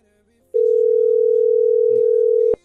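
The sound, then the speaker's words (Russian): Telephone dial tone while a call is being placed: a single steady, unbroken tone lasting about two seconds that ends sharply with a click. “Ну вот звоню, пытаюсь.”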